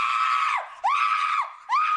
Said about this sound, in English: Yep, screaming is one of those skills.